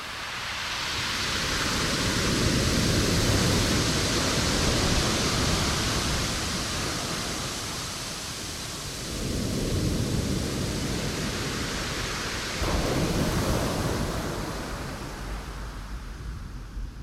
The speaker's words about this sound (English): I'd like to share with you the sound of the most musical beach in the world to my ears.